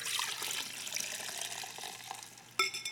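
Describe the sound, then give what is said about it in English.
Two liquids, one blue and one red, are poured together into one container, giving a steady splashing trickle, followed near the end by a sharp ringing knock and a few short clatters; no one speaks. “It's as though you take these two liquids, and if I pour them together,”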